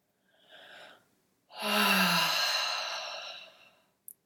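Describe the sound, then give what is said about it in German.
Slow breathing in and out through the mouth with the jaw hanging loose during a guided relaxation exercise: a short soft airy breath, a pause, then a longer, louder rushing breath that gradually fades. “Lass den Unterkiefer locker hängen und atme durch den Mund ein und aus.”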